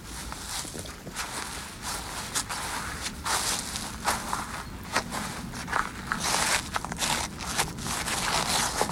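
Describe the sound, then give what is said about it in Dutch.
Footsteps walking through frosted, slightly frozen grass: a steady run of many crisp, crunching steps, evenly paced and fairly loud, with no voices. “zo'n beetje lopen door berijpt gras, een beetje bevroren”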